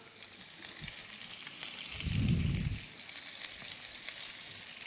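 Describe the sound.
Food frying in a pan for an Italian dish, cooked before salting: a steady, broad sizzling hiss that swells briefly in the middle and then settles. No one speaks.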